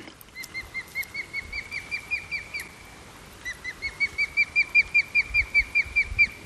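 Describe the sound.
Osprey alarm calls from a male near the nest: a rapid run of sharp, high, repeated whistled chirps, a brief pause, then a second, louder run of the same insistent notes.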